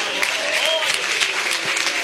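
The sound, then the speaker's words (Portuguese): Applause at a church service: a dense, steady patter of many hands clapping together, holding an even level for the whole stretch without a break. “Uma salva de palmas para Jesus.”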